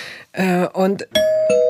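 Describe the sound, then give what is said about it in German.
A doorbell rings with a clear two-tone ding-dong chime. The sustained tones follow a couple of short voiced sounds and are loud and steady. “Es klingelt, dann muss irgendjemand von uns irgendwas machen?”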